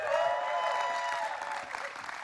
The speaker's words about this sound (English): So if you guys would please put your hands together and do a big Crossing welcome for my friend and our preacher this weekend, Mr. Tyler McKenzie.